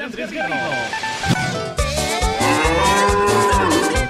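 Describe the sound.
A bull bellows in a loud, drawn-out, deep moo used as a radio sound effect, rich and resonant and sustained through the whole stretch.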